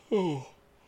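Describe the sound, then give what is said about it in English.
A person gives a short, voiced yawn whose pitch slides downward before fading into quiet. “I apologize. I really was hoping that I wouldn't have gone into the whole yawning thing.”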